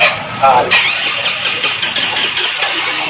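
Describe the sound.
Motorcycle electric starter cranking over and over on an engine that stalled suddenly and won't start, a steady buzzing whir with small surges, voices talking alongside.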